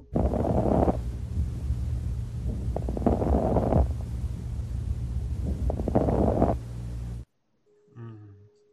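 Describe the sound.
Lung sounds of pulmonary edema, with bubbling like blowing into water: loud, rumbling noise with crackles that swells in repeated breath-paced surges, then cuts off into near silence.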